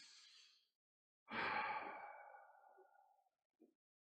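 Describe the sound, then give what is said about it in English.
A deep breath: a short airy intake, then a long, audible sighing exhale that slowly trails off, followed by a tiny faint sound at the end. No one talks. “Let me just take a moment to take a deep breath. I want to invite you to join me in taking a deep breath.”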